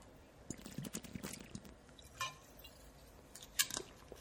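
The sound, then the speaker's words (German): A quick sip of a drink: faint wet mouth and swallowing sounds with a few soft clicks, quiet and brief. “So, jetzt muss ich kurz einen Schluck trinken.”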